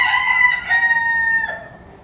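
A rooster crows among chickens drawn in with corn kernels, amid a territorial standoff as new birds are introduced. One loud, drawn-out, tonal crow holds steady, then fades away at the end, with no voices.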